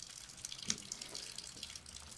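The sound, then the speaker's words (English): Rain dripping from an awning at an airport as a spring storm finishes, a faint, steady watery patter with scattered soft drips and no talk. “He's at the airport the day after the Zoom call, under a dripping awning as a spring storm finishes up.”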